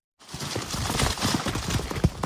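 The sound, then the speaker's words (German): Hooves of several galloping horses strike a forest floor near Khmelnytskyi in western Ukraine: brown and grey horses of an old Polesian forest breed, carrying seven riders. Many muffled, rapid thuds run in a dense, steady rhythm. “Pferdehufe auf Waldboden nahe der Stadt Chmelnytskyi in der Westukraine.”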